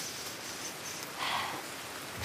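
Rain falls outdoors during a beaver-watching outing, a soft, continuous hiss that is steady throughout and swells slightly midway.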